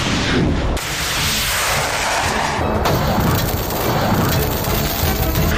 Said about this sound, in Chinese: 按照实弹射击设定的战术背景，此时716导弹正在全速清除来袭目标